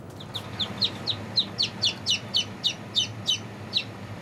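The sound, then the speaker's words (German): Chicks that hatched that morning cheep in a steady series of high, thin, downward-sliding peeps. The calls are evenly spaced and moderately loud over a low, steady background hum. “Auch frisch geschlüpfte Küken zählen mit.”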